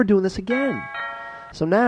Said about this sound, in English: That's my ding dong sound.